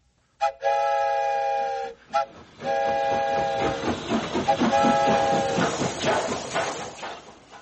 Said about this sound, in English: And I'll leave the whistle in your hands, too.